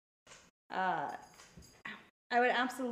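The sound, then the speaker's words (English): A dog vocalizes in a few short, tonal bursts with whine-like pitch bends, separated by brief silences. “Oh, that's the doggo.”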